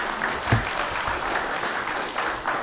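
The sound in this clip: An audience claps steadily to welcome a speaker at a church talk on evangelizing, with brisk, even applause throughout the short stretch.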